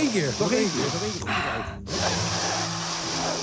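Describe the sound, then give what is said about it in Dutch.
One big, loud sniff drawn in sharply through a person's nose, a short breathy rush of air with vocal sounds just before and after it. “Een hele grote neus die een flinke snuif neemt.”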